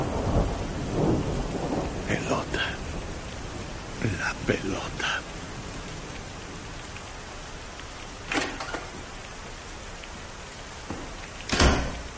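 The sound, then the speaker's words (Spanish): Steady rain falling outside a residence, an even, continuous hiss throughout, broken by a few brief louder knocks and a sharper crash near the end. “Llueve en el exterior de la residencia.”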